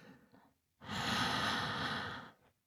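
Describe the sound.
Slow breath drawn in by a person being coached to relax: one long, steady airy inhale lasting over a second, preceded by faint breathy noise and followed by a quiet tail.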